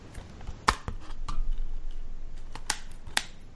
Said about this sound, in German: ich habe eine DVD auf und zu gemacht, beziehungsweise eine Blu-ray